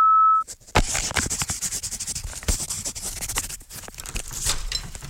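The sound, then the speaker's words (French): An answering-machine beep before a message is left on a radio station's phone line: one steady mid-pitched tone of about half a second, followed at once by loud, continuous rustling and scraping handling noise. “C'est le répondeur de Radio Canu sur 102.2. Alors laisse ton message.”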